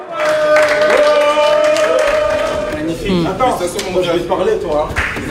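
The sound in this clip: Cheers and applause greet Belgian footballer Jeremy Doku arriving at the Red Devils' team hotel in Seattle, excited voices calling out over scattered clapping, loud at first and then more broken and uneven.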